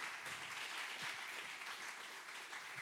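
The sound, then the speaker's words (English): Warm applause from a church audience welcoming a guest speaker, a full, even patter of clapping that carries steadily through the whole clip. “But hey, would you help me welcome Troy Dowdy today? Put your hands together.”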